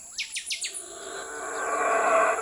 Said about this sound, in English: followed at dawn, just before sunrise, with the first bird sound, and then mammals.